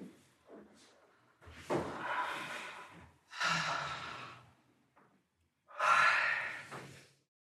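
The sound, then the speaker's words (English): Slow, audible exhales through the mouth while settling in for a rest exercise: three long, soft, airy breaths out separated by short quiet pauses, each swelling and fading gently. “Once you're mostly set up, have a few exhales even out through your mouth.”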